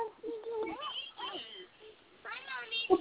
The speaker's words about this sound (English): I see the kitty in the background.